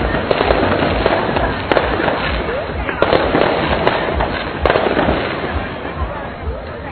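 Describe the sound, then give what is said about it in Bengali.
Fireworks explode at night to close a Bengali New Year fair in an Olympic park, a dense continuous crackle punctuated by several sharper pops, with crowd voices faintly underneath. “আপনারা শুনতে পাচ্ছেন আতশ বাজির আওয়াজ, fire works এর মাধ্যমে বৈশাখী মেলা শেষ হচ্ছে।”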